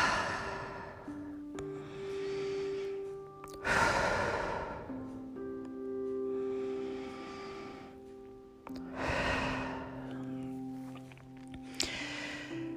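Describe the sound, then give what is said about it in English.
Slow, deep breathing in a seated relaxation exercise, with long audible inhales and a few strong, airy sighing exhales. Soft sustained musical tones play quietly underneath. “Bring yourself into a nice seated position, feet on the floor, and let's take a few deep breaths.”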